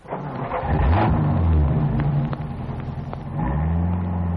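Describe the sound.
A taxi's car engine revs and accelerates away with a loud, steady mid-pitched drone. It eases off briefly near the middle, then surges back up with rising pitch.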